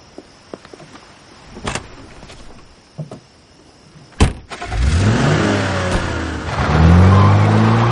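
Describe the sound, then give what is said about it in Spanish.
A car starts off with a few soft clicks and a sharp thud, then accelerates hard into a loud, rising engine roar as it speeds around a garden and back to a club's front door. “Da una vuelta por el jardín a gran velocidad y vuelve a la puerta del club.”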